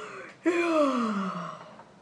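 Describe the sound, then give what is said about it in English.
A single voiced yawn, starting with a sudden open-mouthed intake and then sliding steadily down in pitch over about a second before trailing off, moderately loud and heard alone. “a yawn pops out.”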